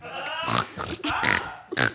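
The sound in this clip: Snorting, grunting oinks voiced by a person for a cartoon pig character, a few short nasal bursts with pauses between them, fairly loud and rough.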